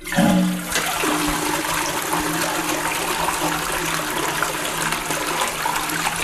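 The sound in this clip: A toilet flush starts with a sharp release and then settles into a loud, steady rush of water that lasts several seconds without fading.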